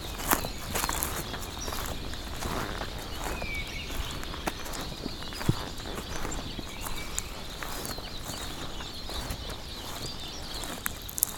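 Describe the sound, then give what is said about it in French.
Footsteps sound on a sound walk in southern Spain: many faint, fairly regular steps tap along over a constant quiet background hiss. “Je dirais presque notre marche sonore initiatique vers le sud de l'Espagne.”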